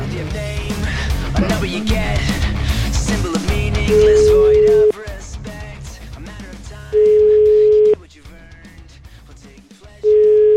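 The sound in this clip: Ringing tone while placing a phone call: music plays loudly at first, then three steady mid-pitched rings of about a second each come at even intervals, the last cut short.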